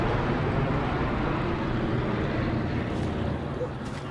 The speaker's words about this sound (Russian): Самолет выпускает воду на спецов.